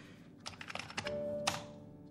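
Typing on a laptop keyboard: a few quick, light key clicks, then a steady electronic beep that holds for under a second before a final sharper tap.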